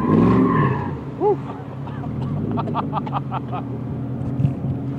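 Car engine and tire skid during a stunt driving lesson: a roaring engine, a brief squealing whine early on, then scattered chirping squeaks over a steady rumble.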